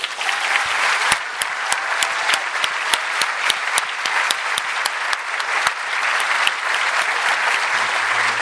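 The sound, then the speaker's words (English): Dense, steady applause fills the hall at the Edinburgh International Book Festival as an audience welcomes an author onto the stage; the clapping holds at an even, loud level throughout, with no voices heard. “So please give a very warm welcome back to the Edinburgh International Book Festival to Michael Palin.”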